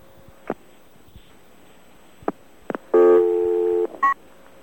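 A telephone autodialer dials a stored number: a few sharp clicks, then a sustained dual-tone beep lasting about a second, followed by a brief second tone.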